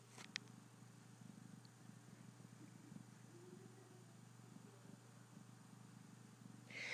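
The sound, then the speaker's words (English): A cat purrs in a faint, steady, low rumble that continues without a break, with a few small clicks along the way. “This is the sound of the cat purring like a race car.”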